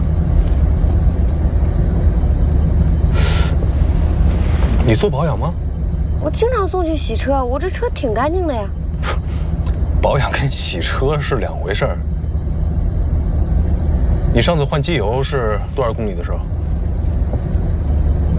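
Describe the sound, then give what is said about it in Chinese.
A car engine runs with a steady, low, continuous roar that is said to sound abnormal. People talk over it throughout. “你这车的声儿好像听着不太对。嗯，有吗？啊，怎么还有声浪？”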